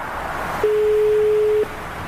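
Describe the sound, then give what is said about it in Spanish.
A telephone tone while a number is dialed: one steady, mid-pitched beep lasting about a second sounds over a constant low hiss, with no talk. “Ya tenemos el número. Estamos marcando.”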